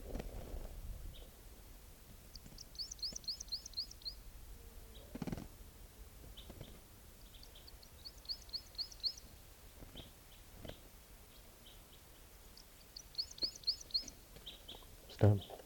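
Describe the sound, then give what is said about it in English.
A bird calls with three separate bursts of rapid, high-pitched chirping trills, spaced several seconds apart. Scattered soft knocks and thumps sound between the bursts, and the overall level is faint. “Here's that same bird.”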